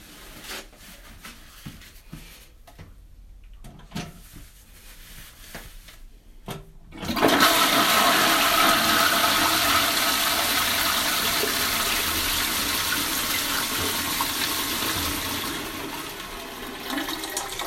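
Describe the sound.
A toilet flushes with a loud, broad rush of water that surges in about a third of the way through and carries on strongly to the end, fading only slightly. Before it, there are only faint, scattered small sounds.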